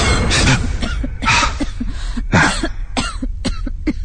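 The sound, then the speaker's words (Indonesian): A person coughs repeatedly, with several harsh, loud bursts and a few weaker coughs trailing off toward the end. “terdengar lagi suara batuk itu. Yang tadinya terdengar dari bawah, tapi sekarang suara batuk itu terdengar dari lantai atas tempatku tadi.”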